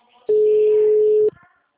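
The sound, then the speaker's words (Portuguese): A telephone ringback tone heard while a call is ringing through, unanswered: one steady, mid-pitched electronic beep lasting about a second, loud and alone. “Tô, mas não tá falando. Tá chamando só.”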